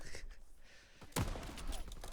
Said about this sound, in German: Wie die ganzen Sniper rumrennen. Ich glaube, das ist kein Game für mich. Da wird zu viel geschnippert.